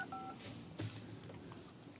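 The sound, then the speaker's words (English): Phone keypad being dialed: one short, faint dial tone at the start, followed by a low, steady hiss. “Just give me a random number. Then press the maybe they'll answer.”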